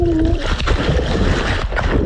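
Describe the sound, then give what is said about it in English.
Water splashes and slaps as a GoPro camera held in a swimmer's hand strikes the surface with each stroke, a continuous churning wash with repeated rough slaps and no voices. “So you continued to swim with the GoPro running in your hand. Yes. That's shocked it still kept going because it's just slapping against that water.”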